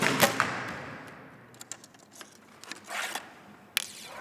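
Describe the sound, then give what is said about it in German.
Shooting at a target: a few sharp snapping and whooshing impacts, spaced apart by quieter pauses with small scrapes and clicks between them. “Schießen.”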